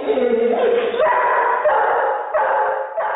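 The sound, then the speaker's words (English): Dogs bark and yip in a dense, continuous stream, one dog barking playfully and another barking angrily at a stranger, loud and insistent, with the tone of the barking shifting partway through. “Well, if you couldn't tell that the first dog, Kira, was playing while the second, Lassie, was angrily barking at a stranger, artificial intelligence might be able to help you.”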